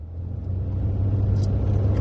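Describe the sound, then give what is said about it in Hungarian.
Steady low engine rumble of a car climbing an uphill stretch of Gyöngyösi Road, a continuous deep drone with a faint whir above it, holding fairly even in loudness throughout. “Az autó a Gyöngyösi úton kapaszkodik, lassít és berreg.”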